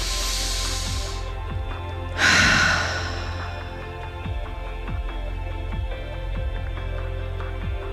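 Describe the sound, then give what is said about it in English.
A deep breath with hands placed on the heart at the close of a breathwork session for body acceptance: a soft breathy inhale, a short pause, then a louder sighing exhale over a faint steady background hum. “I'm just placing your hands in your heart for one last nice deep breath.”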